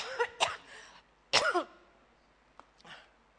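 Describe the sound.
Someone with a dry throat clears it in two loud, rasping bursts close together, followed by a couple of faint, brief throat sounds, with no talk.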